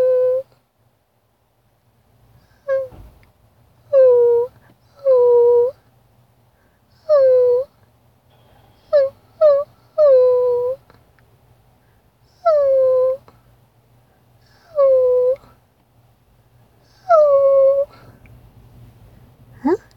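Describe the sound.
A person whimpers in a whiny, dog-like way, giving about ten short nasal whines, each sliding down in pitch and then leveling off. The cries come in uneven bursts with short gaps between them, over a faint low hum.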